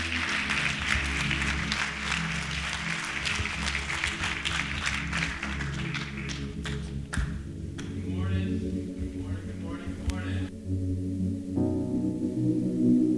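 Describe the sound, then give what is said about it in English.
Sustained applause for the graduating seniors at a church service, dense and loud clapping for several seconds before it thins out toward the end. “Give it up for our seniors one last time.”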